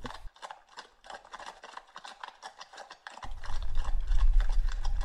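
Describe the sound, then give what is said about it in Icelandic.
Horses arriving, with many hooves clip-clopping in a quick, irregular patter. A low rumble joins partway through and the hoofbeats grow louder. “ég ætla fyrst að heyra í hestunum þegar þeir koma”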